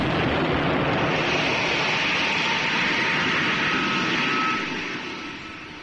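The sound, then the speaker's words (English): A rocket takes off with a loud, steady roaring rush of engine noise that holds for several seconds and then fades toward the end. “The rocket's gone. It went straight up there at a terrific speed.”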